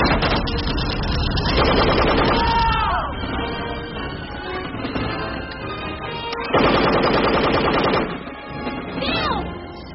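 Rapid gunfire from an attack on a convoy. Dense rattling volleys run almost without a break for the whole stretch and swell loudest in two heavy bursts.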